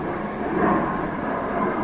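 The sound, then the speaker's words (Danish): Airplane passing overhead: a steady, broad rumbling roar of moderate loudness that holds evenly throughout, with only a slight swell partway through. “Der er ikke så mange fly ellers her. Og nu flyet passeret på samme måde, som tankerne jo passerer.”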